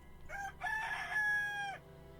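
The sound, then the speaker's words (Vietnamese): A rooster crows once: a long, loud, drawn-out call that rises at the start, holds steady, then drops at the tail, alone over a low steady hum. “có tiếng gà gáy vang lên”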